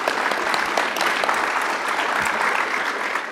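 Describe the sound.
Steady audience applause for a presenter at a live session of JavaScript lightning talks, dense clapping that stays even for a few seconds and eases off slightly at the end.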